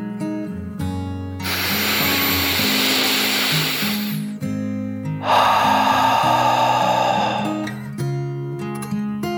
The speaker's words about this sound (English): took one final deep dragon breath in and out.